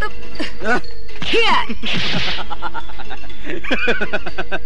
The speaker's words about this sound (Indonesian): Hebat juga pukulan-pukulan yang kau lancarkan.